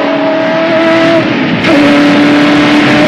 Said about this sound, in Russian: Машина несется по трассе.